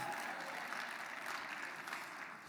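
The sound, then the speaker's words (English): Light applause from elderly members of a church audience, a soft, even patter of clapping that holds steady at low volume for a couple of seconds. “all the old folk with enough strength clapped a bit there.”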